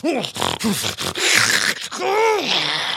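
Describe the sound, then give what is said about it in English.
A voice makes throaty snarling groans and grunts, like a werewolf's growl passed off as a sniffle. Several short voiced bursts lead into a longer, drawn-out growl, loud and with no other sounds. “Did you just snarl? Nonsense. Merely a sniffle.”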